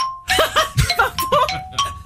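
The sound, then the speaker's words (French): A game show gong rings as a sustained, steady tone under lively overlapping talk from the contestants and host. “Il y a le gong qui a retenti.”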